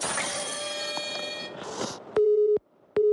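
Telephone busy tone on a call that is not getting through: two loud, steady mid-pitched beeps separated by a short gap, the second cut off at the end. Before them comes a stretch of softer, mixed sound.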